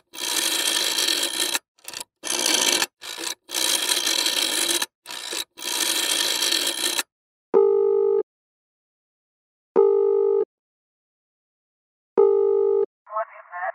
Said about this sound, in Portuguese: Vamos já ligar para a CMTB. Isso, isso, liga, liga, liga.